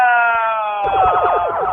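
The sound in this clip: A siren being switched on: a loud, steady electronic tone gives way partway through to a fast, repeating warble that continues to the end, heard alone.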